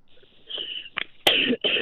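A cough: a faint short hack, then a few harsh, breathy bursts that grow loud toward the end.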